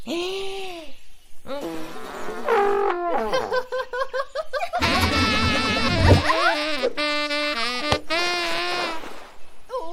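Saxophone played loudly, blaring through a run of wavering, buzzy notes that bend and slide in pitch, with short breaks between phrases and a dense, loud sound throughout.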